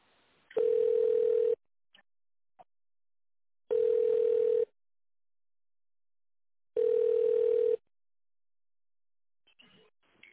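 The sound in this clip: Telephone ringback tone heard while a call is being transferred: three long, steady beeps of one unchanging pitch, each about a second, separated by long silent gaps, with a few faint clicks near the end.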